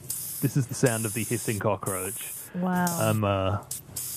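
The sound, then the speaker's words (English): A Madagascan hissing cockroach gives a steady, bright, airy hiss that runs through the whole clip while voices talk over it. “That's right. This is the sound of the hissing cockroach.”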